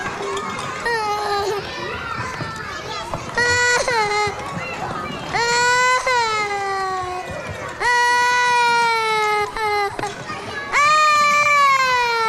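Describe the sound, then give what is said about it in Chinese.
A young child of four or five cries in a kindergarten class, with repeated high-pitched, wavering wails that rise and break off in a few loud bursts. “不哭了啊，不哭”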